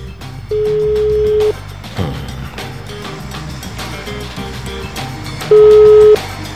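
Ringback tones on a telephone line while a call is placed: two long, steady mid-pitched beeps, separated by several seconds of quieter background noise.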